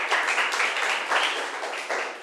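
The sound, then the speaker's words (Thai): Classmates clap for a student who answered correctly during a Thai classroom lesson: a brisk, even patter of many hands. It swells and eases in a few short surges and stays moderately loud throughout. “ค่ะถูกต้องค่ะเก่งมากปรบมือให้เพื่อนหน่อย”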